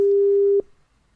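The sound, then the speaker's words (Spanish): A telephone ringing tone while calling a number: a single steady, pure mid-pitched beep lasting about half a second, then cutting off abruptly, with no voices. “Aquí está el número 16, la vamos a llamar.”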